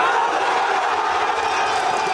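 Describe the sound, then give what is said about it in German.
A crowd in Spain cheers and shouts after the national football team's World Cup final win over Argentina, a loud, dense, unbroken roar of many voices. “Guten Morgen und so jubelt man in Spanien wahrscheinlich immer noch.”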